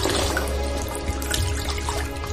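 Water runs at a washroom sink as someone splashes it on their face: a steady, dense rushing and splashing throughout, with no voices.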